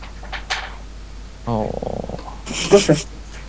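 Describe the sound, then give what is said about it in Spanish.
A kitten makes a short, throaty, pulsing sound, followed by a brief rougher burst, heard alongside a voice on a Skype call. “¿No caché qué fue? El gatito.”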